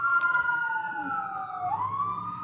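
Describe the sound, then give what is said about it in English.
A passing emergency siren wails steadily, its tone sliding slowly downward and then climbing again, over a low background rumble of traffic. “Here comes a gosh darn siren, everyone.”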